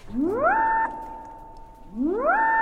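A modular synthesizer with its filter patched to an LFO produces two bright rising sweeps. Each sweep levels off into a steady, buzzy, harmonic-rich tone that holds before the next one starts.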